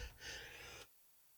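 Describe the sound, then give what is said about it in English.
A single sneeze: a short, sharp burst of breath that cuts off abruptly, faint and heard alone. “excuse me, I had to sneeze”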